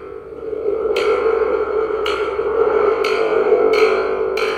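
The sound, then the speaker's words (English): A shaken thunder tube Foley device, a cardboard tube with a drum membrane and a spring, gives a sustained metallic rumbling drone. Five sharp, splashy crashes break out of it at roughly one-second intervals, each trailing off with a springy echo. “It's called a thunder tube. What I'm holding is a tube, what appears to be a cardboard tube, with a drum membrane at one end, and out of the center of that drum membrane is a spring,”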